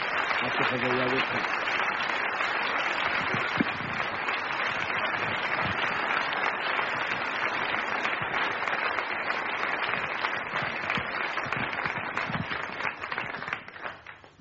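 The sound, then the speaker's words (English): Audience applause at an awards ceremony as a professor is welcomed to the stage: steady, dense clapping for about fourteen seconds with voices mixed in, tapering off at the very end. “Put your hand together and welcome the Lord.”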